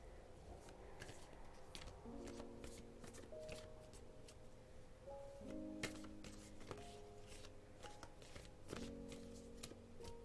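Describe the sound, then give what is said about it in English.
Tarot cards being shuffled and drawn, faint repeated riffling, flicking and soft taps throughout, over quiet sustained background music notes. “here's what I'll do. I'll pull one card to describe you, one to describe her, and one more card for extra input on the situation.”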